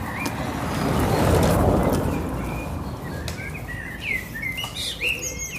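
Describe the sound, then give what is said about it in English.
Birds chirp and sing among trees in Berlin, with bright, scattered calls that cluster in the latter half over a steady low city hum. “there's so many birds all over Jump. I mean, you hear this. Maybe it's just because there's so many trees, it seems, in Berlin.”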